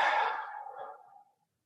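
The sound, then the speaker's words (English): One long, deep exhaled breath during a group breathing practice, soft and airy, trailing away to silence after about a second. “So big breath in, breath out.”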